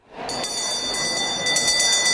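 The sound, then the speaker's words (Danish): An electric bell is rung by the speaker of the Danish parliament in the chamber to open the opening debate. The bright, piercing ring starts abruptly and sustains throughout, becoming more pulsing near the end. “For sådan her lød det, da folketingsformand Henrik Frandsen ringede ind til åbningsdebatten, der begyndte klokken 8 i morges.”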